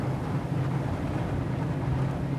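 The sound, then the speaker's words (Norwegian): Steady engine drone from a 500-horsepower boat out on the Trondheimsfjord, a continuous low rumble with a broad rushing wash over it, unbroken from start to finish with no talk. “GPS-en er på, en 500 hestekrefter rykker i tauene, og der ute ligger Trondheimsfjorden og venter.”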